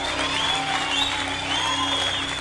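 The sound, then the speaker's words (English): An audience at a church service claps and celebrates. The applause is steady and dense and holds a fairly even level throughout, with no clear speech. “Keep clapping and keep celebrating the privilege of having this light.”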